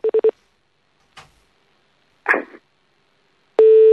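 Telephone tones as a call is placed again: three short beeps at the start, a couple of faint brief rustles, then a loud steady tone that begins near the end and continues to the cut.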